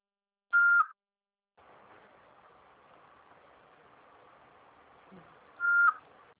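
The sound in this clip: Two short, steady answering machine beeps, one at the start and one near the end, loud and high, with a faint steady hiss between them.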